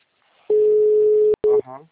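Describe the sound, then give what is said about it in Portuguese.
A telephone busy signal gives a steady mid-pitched tone that cuts off, then returns as a short second burst, and a brief voice follows at the end. “Alô, boa tarde. O número está ocupado.”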